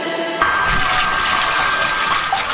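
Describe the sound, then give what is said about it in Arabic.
Water running while someone washes their hair: a steady, loud, hissing rush of water that continues without pause for the whole stretch, with no voices over it. “ها يلا بقى نبدا نغسل شعرنا.”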